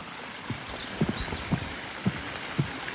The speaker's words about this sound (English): So we're just walking across one of your boardwalks here in the park.